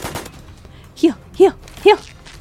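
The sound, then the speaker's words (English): Three shotgun blasts go off in a video game, punchy booms spaced about half a second apart in quick succession. “Shotgun saving us again.”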